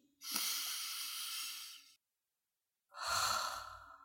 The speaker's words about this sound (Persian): بیاید یه نفس عمیق دیگه بکشیم